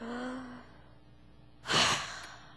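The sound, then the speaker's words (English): A deep breath is let out in a single breathy, sigh-like exhale during a guided breathing exercise; it comes after a quiet stretch and is soft, brief and unaccompanied by words. “take a deep breath in and exhale. Okay, do it again.”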